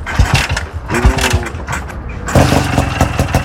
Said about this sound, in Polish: Chodzi jak ta lala. O! I się nagadał. No niestety nie jest to mój motocykl.